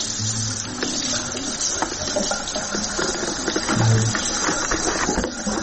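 Water splashes and patters steadily as a father bathes his three-month-old baby daughter, a continuous wash of running, sloshing water with a few brief sharper splashes throughout.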